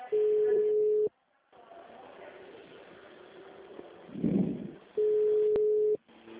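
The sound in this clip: Telephone ringing tone on an outgoing call: two steady one-second bursts of a single low pitch, separated by a long gap of faint line hiss.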